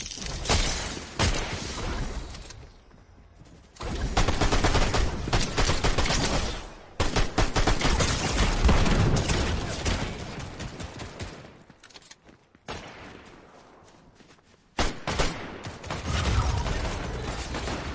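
Video game gunfire in loud, dense bursts of rapid shots, broken by a few brief lulls and quieter stretches, with sharp cracks standing out over a steady rattle.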